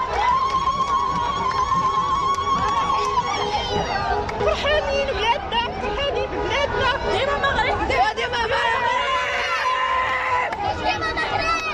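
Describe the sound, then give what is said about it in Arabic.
Moroccan fans celebrating in the streets and squares after their team reached the World Cup quarter-finals: a loud, dense crowd of voices chanting, singing and shouting without a break. “أعلام، هتافات وأهازيج مغربية.”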